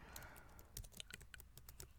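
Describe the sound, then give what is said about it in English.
Rapid typing on a computer keyboard: many faint, crisp key clicks in an uneven, busy rhythm, with no talk. “Don't stop typing now.”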